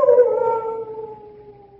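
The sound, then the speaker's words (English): A large dog howls in one long, drawn-out cry that starts fairly loud, sinks slightly in pitch and fades away. The dogs are kept at a chateau. “Only the dogs, monsieur. They keep many dogs.”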